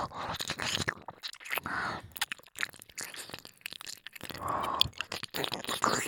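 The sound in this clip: Wet mouth sounds of licking and nibbling an ear, with many irregular smacks, crunchy nibbles and soft slurps in uneven bursts, fairly quiet throughout.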